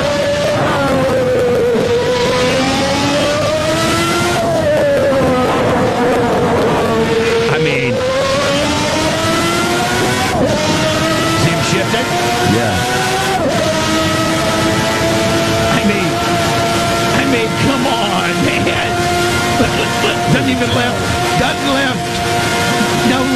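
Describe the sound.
Race car engine accelerating through the gears on the Nürburgring, a loud, continuous rasping roar whose pitch climbs steadily and then dips sharply at each gear change before climbing again.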